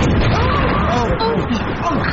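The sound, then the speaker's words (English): A loud, sustained rumbling blast from a missile striking a spaceship, a sound effect with dense roaring noise that barely fades, and voices over it. “Where the hell did they fire a missile at us?”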